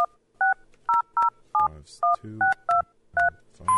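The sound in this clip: Telephone keypad dialing a number: about ten short two-note beeps at an uneven pace, with a faint low rumble between some presses.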